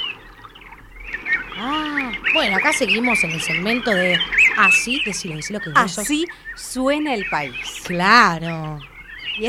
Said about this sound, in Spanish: si suena así, suena en la selva. Claro, cuando nos vamos más hacia el lado del norte. A Misiones, por ejemplo.